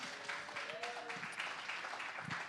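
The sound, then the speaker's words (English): Faint audience clapping welcomes home a returning church planter. A soft patter of many hands runs throughout, with voices speaking over it. “Can you just give a clap”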